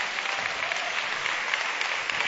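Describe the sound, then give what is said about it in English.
Audience applause at a church service, a steady dense wash of clapping hands, fairly loud and even throughout with no voices standing out. “Shall we just give our leaders a big round of applause again?”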